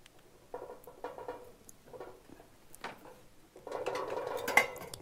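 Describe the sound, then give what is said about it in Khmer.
Food is placed into a pot to steam on top, out of the water. Faint, irregular clattering, knocking and rustling grow busier and louder toward the end. “យើងដាក់វាចំហុយនៅខាងលើឥឡូវយើងដាក់ចូលទៅក្នុងឆ្នាំង”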